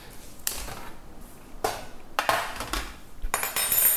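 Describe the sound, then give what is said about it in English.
A spatula moves hot nuts around on a baking tray, making a few quiet metallic clatters and rattling scrapes at irregular intervals. “And I'm just gonna add the nuts into the chocolate. So this tray is really hot. Let me get a spatula to help me.”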